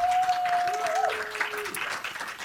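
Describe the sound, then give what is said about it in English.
Audience applause welcoming a guest onstage at a live show at a Canadian fan expo, a dense, even patter of clapping with some vocal sounds rising over it. “Please put your hands together and welcome to You Made Me Queer, Natasha Negovanlis.”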